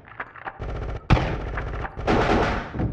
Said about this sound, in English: Get ready. Contact. Open fire.